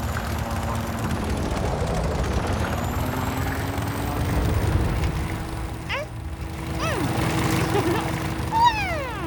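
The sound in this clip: A pedal-powered bicycle helicopter flies with a steady whirring, rotor-like drone, while whistling sweeps and vocal sounds rise over the hum toward the end.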